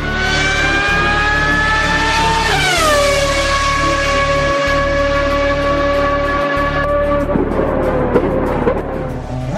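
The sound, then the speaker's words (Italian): A Porsche 917 race car engine roars with a loud, sustained, tonal whine. The pitch rises slightly, steps down sharply once and holds, then turns rougher and fades a little at the end. “Porsche 917”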